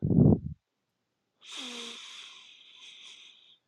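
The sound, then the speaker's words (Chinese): A slow, deep inhalation during a guided breathing exercise: a soft breathy hiss of about two seconds with a faint whistling edge, following a brief low voice. “慢慢的吸气”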